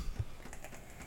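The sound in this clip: Someone taking notes on a keyboard makes a brief run of quiet, soft key taps lasting about a second, with no talking.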